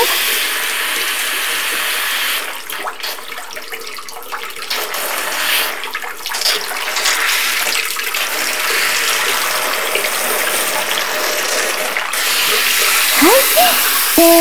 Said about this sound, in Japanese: 右耳のところに泡がついてるの。流しちゃって。